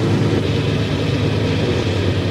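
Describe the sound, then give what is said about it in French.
Steady low engine rumble and broad road noise from a car driving along a road, constant and unbroken throughout with no talking. “On roule sur une route en automobile.”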